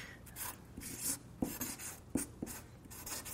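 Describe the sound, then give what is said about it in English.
Pen strokes as someone draws in a different color, a steady scratchy rasp with a few sharper taps where strokes start and lift. “I'm going to draw this in a different color for you so that it gets your attention”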